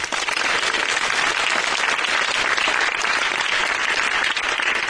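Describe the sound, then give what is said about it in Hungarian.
A radio studio audience gives loud, sustained applause, a dense and even roar of many clapping hands that holds without a break for about five seconds. “Itt is van velünk a stúdióban, hatalmas tapsot kérünk neki!”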